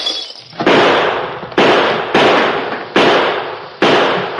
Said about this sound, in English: Keep shooting.